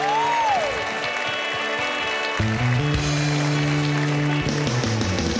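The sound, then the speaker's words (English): An audience claps to welcome an Elvis tribute performer at a South Point show, with continuous applause while band music enters partway through. “A warm welcome, Donny Edwards.”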